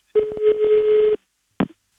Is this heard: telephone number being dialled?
yes